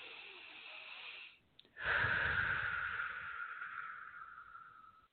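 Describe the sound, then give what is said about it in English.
Deep breaths in and out: a steady, airy breath, a brief pause, then a long, breathy exhale that slowly fades. “Take a couple of deep breaths in and out.”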